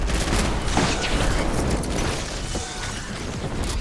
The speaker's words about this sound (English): That's speeding up, because I've got the gold SMG now.